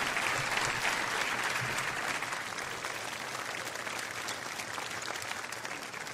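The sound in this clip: Audience applause at a live storytelling event: a dense, steady wash of clapping that holds an even level for about six seconds, easing slightly toward the end, with no voices over it.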